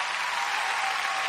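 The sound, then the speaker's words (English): Dense applause welcoming a guest, a bright, continuous wash of many hands sustained evenly through its brief length. “And these applause are for you.”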